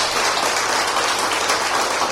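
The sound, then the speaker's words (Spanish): Applause from a church audience, a dense, steady crackle of many hands clapping at even loudness from start to end, with no voices over it. “Denle un aplauso a ese Rey de Reyes, a ese Señor de los Señores.”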